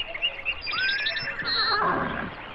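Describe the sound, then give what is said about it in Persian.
A horse neighs in a long, quavering, high-pitched whinny that wavers in pitch over a soft, noisy background, with no talking. “بله درست شنیدم، صدای اسب بود. اون خودش است.”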